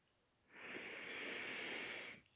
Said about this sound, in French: J'inspire et je souffle dans l'intention de me détendre.